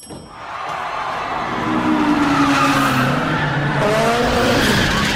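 A race car drifting in a street race in Tokyo, its engine roaring loudly as the tires squeal in long, wavering skids that rise and fall in pitch, with no talk over it.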